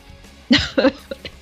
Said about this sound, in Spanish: Una heredera en camino, porque esta está tosiendo ya.